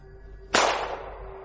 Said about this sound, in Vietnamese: Lý Mật Dô lập tức bắn lên trời một phát súng